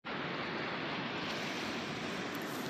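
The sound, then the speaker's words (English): Ocean waves make a continuous, quiet wash of surf that holds evenly for the whole clip, with no distinct breaking crests standing out. “You hear that? That's the sound of the waves.”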